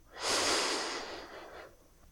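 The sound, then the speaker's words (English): One long, deep breath drawn in during a guided relaxation exercise: a loud, airy rush that swells quickly, holds briefly, then tapers away over about a second and a half, heard alone without talk. “Now take a nice deep breath of God's goodness in.”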